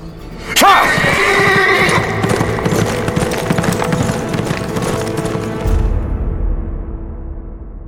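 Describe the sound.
A saddled horse gives one loud whinny near the start as its rider swings into the saddle, followed by several seconds of continuous clattering hooves and movement that gradually thin out toward the end.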